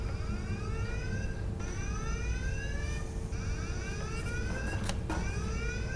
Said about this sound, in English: The lockdown alarm would go off, and it would sound like this.